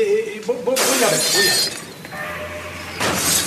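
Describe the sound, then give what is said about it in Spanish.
A table knocked over and a vase breaking: a sudden loud crash with a bright shattering spray that lasts about a second, then fades into a quieter tail before another burst of noise near the end. “Mesa derribada, jarrón roto.”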